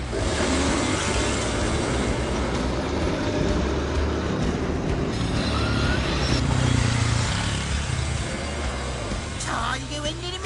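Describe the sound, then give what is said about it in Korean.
A yellow car's wheels spin in sand during a race, a loud, continuous engine roar with grinding noise that holds steady throughout. “노란 차가 모래에 빠졌어요. 스포츠카는 통과할까요? 아, 이게 웬일입니까? 차 바퀴가 모래에 빠져 헛바퀴만 돌고 있네요.”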